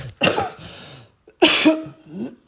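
Two coughs from someone with a lingering cold, each a sharp burst trailing into a rougher, throaty tail, separated by a short pause.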